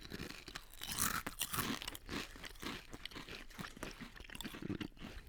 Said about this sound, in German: Und also sie riechen nach Cocktailsoße auf jeden Fall. Okay. Jetzt koste ich mal. Also schön crunchen.